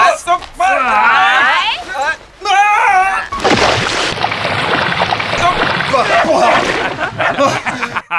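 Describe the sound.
A person thrown into a lake hits the water with a loud splash, followed by sustained sloshing and churning. Laughter and voices come just before the plunge, and talk carries on over the moving water.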